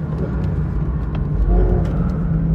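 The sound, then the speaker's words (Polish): Engine of a naturally aspirated 4.0-litre car, a steady, fairly loud low drone with a slight swell in the middle as the revs build a little. “I ten dźwięk silnika, prawilne 4.0, wolno ssąc.”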